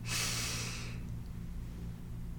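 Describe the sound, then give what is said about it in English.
A deep breath is drawn in, a soft airy rush lasting about a second. It fades into a faint, steady low hum. “Take a deep inhale, fill your belly up.”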